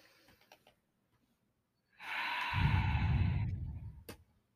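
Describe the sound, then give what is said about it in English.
A slow, deep breath makes a soft airy rush lasting nearly two seconds, then a brief click, with near silence around it. “take in a deep breath with us”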